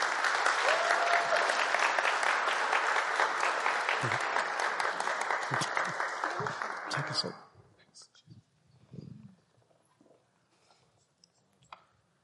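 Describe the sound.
An audience applauds to welcome guests at a Burlington gathering, with dense, sustained clapping for about seven seconds that then fades into scattered small sounds and quiet talk.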